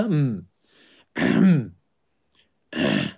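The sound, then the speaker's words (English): A person clears the throat in three short, rasping bursts separated by brief pauses, with no other sound around them. “Or he clears his throat.”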